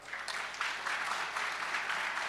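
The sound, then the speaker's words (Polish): Applause from an audience, a short, steady patter of many hands clapping at moderate volume, sustained evenly without talking. “Wielkie brawa.”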